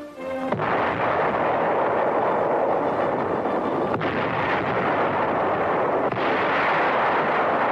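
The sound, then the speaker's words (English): A naval artillery barrage during beach landings near Cherbourg: a dense, continuous roar of gunfire and blasts, loud and unbroken throughout, with a few sharper bursts standing out. “Landings are made under a naval barrage.”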